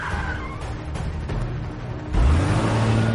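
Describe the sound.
Car engine revving as a commandeered police car is driven off in an action-thriller scene, a rough mid-pitched engine drone that surges sharply louder with a burst of acceleration partway through and stays loud to the end.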